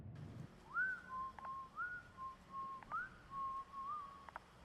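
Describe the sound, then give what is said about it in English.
A person whistles a cheerful tune while passing by at night. The faint, clear whistle repeats a short phrase several times, each phrase sliding up into a held note, with a few soft clicks in between. “The whistler goes past and hums the same tune every night. It's somewhat cheerful.”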